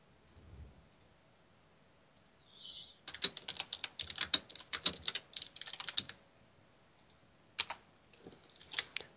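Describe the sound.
Computer keyboard typing and clicking while pasting descriptions into a Dragon Age character sheet: quiet, with a few faint sounds first, then many rapid clattering keystrokes in uneven bursts.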